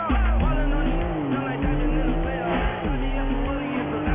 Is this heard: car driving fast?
yes